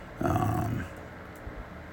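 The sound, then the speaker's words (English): A dog outside gives one short, low bark or growl lasting about half a second, fairly faint, followed by quiet background. “you hear my dog outside”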